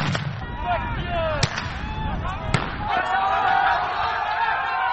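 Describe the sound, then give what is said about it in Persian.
Police fire tear gas and rubber bullets at migrants trying to break through the Macedonia–Greece border fence: two sharp, loud reports go off over a constant roar of crowd noise and shouting voices. “پلیس آنها را با گاز اشک‌آور و گلوله‌های رابری نشانه می‌گیرد.”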